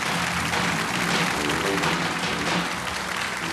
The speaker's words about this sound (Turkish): Tabi ustalar alkış.